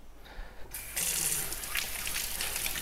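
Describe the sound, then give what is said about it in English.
Running tap water washes two sturdy oranges, starting with a faint trickle before the flow gushes on strongly and keeps splashing steadily. “I'm gonna take two oranges, pretty sturdy oranges, and I'm just gonna give them a good wash.”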